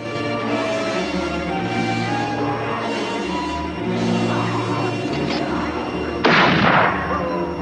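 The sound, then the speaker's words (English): A single rifle gunshot cracks out near the end, fired by a rider on horseback at wolves gathered around a carcass in the snow, breaking through a dense, steady background. “He stops and watches before reaching back for his rifle.”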